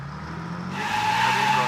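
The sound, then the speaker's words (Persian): A car brakes suddenly and swerves to avoid a truck, its tires screeching in a sustained high squeal that swells partway through over a steady engine roar. “مرنا در حالی که ناگهان ترمز میگرفت برای پرهیز از تصادف با کامیونی که در مسیرش بود منحرف شد.”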